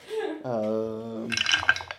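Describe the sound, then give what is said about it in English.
Dice clatter during a tabletop role-playing game. A brief voice comes first, then a short burst of light rattling clicks as the dice tumble and settle. “Gillen likes watching the dice rolling.”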